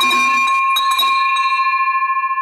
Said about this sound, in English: I love that bell, man.